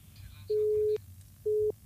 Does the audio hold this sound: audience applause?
no